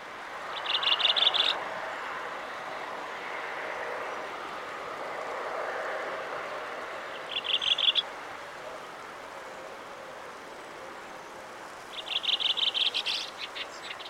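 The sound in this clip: Redwing song in a local dialect of four to five rising, trilling repetitions: three short, high bursts of rapidly repeated notes, spaced well apart over a steady background hiss.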